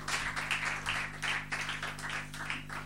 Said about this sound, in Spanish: Fuerte el aplauso para Julien, francés y Viví de Chile.